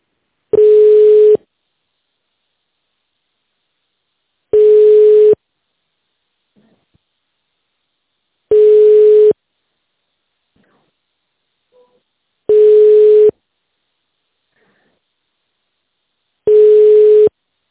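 A telephone ringback tone sounds as an office call to a company secretary connects. Five steady single-pitch beeps, each about a second long, are evenly spaced by long silences.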